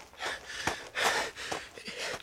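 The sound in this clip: Panting of a man out of breath after running to a garden tomb, several rapid, heavy, breathy gasps in an uneven rhythm, with no other sounds.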